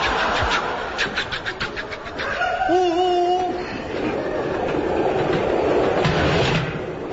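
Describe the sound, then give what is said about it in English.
A train running on rails rumbles steadily throughout, with rhythmic pulsing clatter early on and a couple of brief, whistle-like tonal squeals in the middle, with no talk over it. “Hey, you're supposed to be driving this train.”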